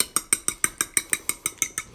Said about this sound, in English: I've got 2 large eggs in a small bowl, and I'm just going to give those a quick whisk so they're mixed together.